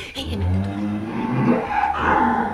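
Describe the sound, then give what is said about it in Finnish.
Low, drawn-out lowing of dairy cattle in a cow barn with about thirty milking cows, several overlapping moos over a steady, busy barn background. “Täällä on sitten näitä lypsäviä 30 päätä. Hiehoja on 9 vasikoita saman verran.”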